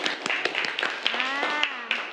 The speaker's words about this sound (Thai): โอเคปรบมือให้เพื่อนหน่อยค่ะ